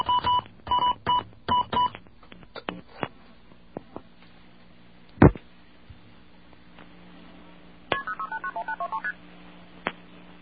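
Touch-tone keypad beeps as someone dials a calling card call: a handful of evenly paced tones at the start, scattered clicks and one louder thump midway, then a quick, even run of many tones near the end.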